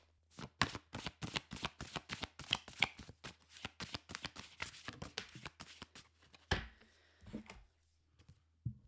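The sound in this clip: A deck of affirmation cards is shuffled in a rapid run of many crisp, rhythmic flicks, then comes a louder rustling burst and a few soft taps.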